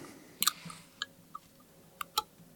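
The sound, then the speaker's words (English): Someone opens a milk carton, producing a few sharp, faint crackles and clicks of cardboard at irregular intervals against a quiet background. “I'm opening my milk carton now.”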